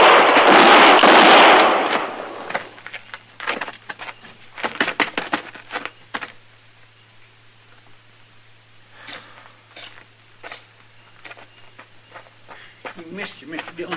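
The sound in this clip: Gunfire in a shootout: a loud, roaring gunshot blast opens the scene, then voices talk in the quiet that follows.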